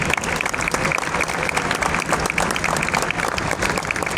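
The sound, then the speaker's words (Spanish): Audience applause at a Consumer Day event in San Juan, dense, even clapping that holds at a steady level throughout without a break. “Un fuerte aplauso, por favor.”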